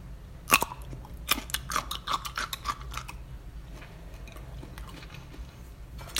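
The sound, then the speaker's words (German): Crisp, sharp crunches of biting into a pickled gherkin come in a few bursts over the first three seconds, then give way to softer, quieter chewing. “jetzt noch eine Gewürzgurke essen.”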